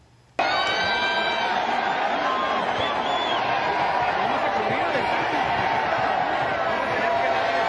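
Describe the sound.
Crowd of some 20,000 fans at the Las Vegas Sphere booing a singer who cancelled his show: a loud, sustained roar of voices with shrill whistles cutting through, starting abruptly and holding steady.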